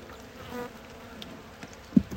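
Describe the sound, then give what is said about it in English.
Angry honeybees buzz around a shallow hive box while a beekeeper works, a steady, dense droning hum that holds throughout, with a short louder bump near the end. “Now the bees are getting more angry and risk their lives to sting me.”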